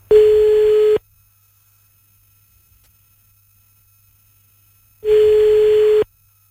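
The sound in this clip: Telephone ringback tone heard while a call is being placed: two long, steady beeps about four seconds apart, loud and alone with silence between them and no talk.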